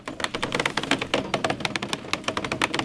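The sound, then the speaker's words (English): Construction workers deep in the woods unspool several hundred feet of fiber optic cable, making a rapid, irregular stream of sharp clicks and taps. The ticks are crisp and closely packed, with no voices. “That's the sound of construction workers unspooling several hundred feet of fiber optic cable.”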